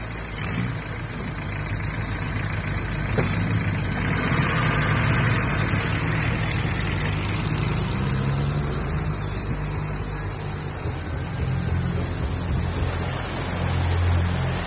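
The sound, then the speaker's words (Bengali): Lorry engines rumble and idle in a deep, loud, continuous roar that stays fairly even for the whole stretch, with no talk over it. “একটু পরে লোকগুলো লরিতে এসে উঠল। প্রথমে সামনের লরিটা গর্জন করে উঠল, তারপর পেছনেরটা।”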